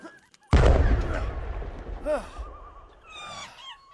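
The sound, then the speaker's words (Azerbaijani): A single loud rifle gunshot cracks out with a sharp onset and a long, rumbling decay, followed by brief vocal sounds. “Vurdum onu.”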